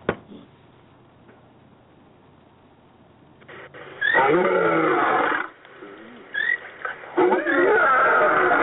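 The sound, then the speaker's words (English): A real animal roars in two long, loud, rough bursts with a low rumbling growl, separated by a quieter stretch, after a faint steady background at the start. “You can hear the crickets in the background too, and that is really a roar. You know, that's not artificially made. That is an actual animal roar.”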